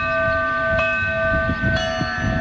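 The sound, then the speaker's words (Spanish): Church bells ringing in Lerín during an eclipse, sustained ringing tones with two clear strikes about a second apart over low background noise. “Y así han sonado las campanas en Lerín, Pamplona, para que pudieran seguir el eclipse las personas con discapacidad visual.”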